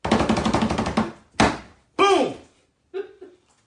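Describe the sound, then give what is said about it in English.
A voice imitates drums: a fast rattling roll comes first, followed by a few separate booming hits with short silences between them. “Boom! I did my own drums.”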